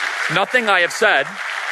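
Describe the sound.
Audience applause at a speaking event, a steady wash of clapping running beneath a man who talks over it.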